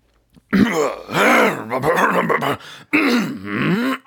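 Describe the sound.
A man's voice imitates throat clearing in several drawn-out, gravelly, groaning bursts separated by short pauses.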